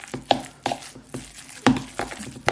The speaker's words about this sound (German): Jetzt rühre ich das mal schön durch. Ja, das vermischt sich wunderbar. Die Butter hat genau die richtige Konsistenz.